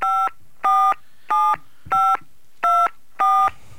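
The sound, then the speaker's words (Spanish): Telephone dialing tones for an international call, seven short, even electronic beeps in a quick regular rhythm, each a clear steady two-tone burst separated by brief silences. “así que vamos a empezar a discar. Ahí está discando la producción.”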